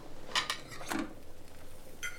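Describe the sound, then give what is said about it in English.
Faint, brief clinks and scrapes of a plate against a frying pan as fried eggs are slid back in, with a few short knocks spread across the moment and no talk. “takes the plate and slides the eggs back into a pan”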